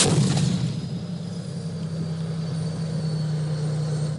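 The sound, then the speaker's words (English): A tank gun fires in wartime Han Shaihun, Syria, one heavy boom at the start, followed by the steady, droning rumble of an aircraft passing overhead. “That's the sound of tanks firing and an aircraft overhead in Han Shaihun.”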